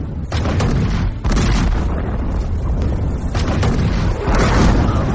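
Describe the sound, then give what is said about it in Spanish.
A ship's cannons fired one after another: several deep, heavy booms, each followed by rumbling, over dense continuous low roar. “ahí está encendiendo los cañones uno a uno, corriendo de uno al otro lado del barco, de pro a popa, de babor a estibor y ahí está prendiendo fuego.”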